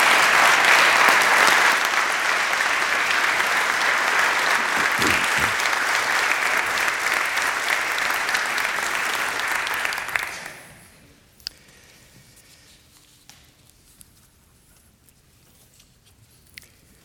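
An audience applauds to welcome a lecturer back for a final seminary lecture, with loud, steady clapping for about ten seconds before it dies away into near quiet broken by a few small thumps.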